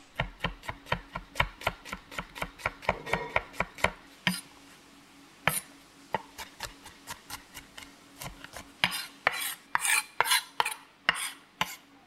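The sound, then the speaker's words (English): A knife mincing garlic cloves for a miso mushroom pasta, with many quick, crisp taps in an uneven rhythm and short pauses, faint overall. “Now, once you're done mincing your garlic”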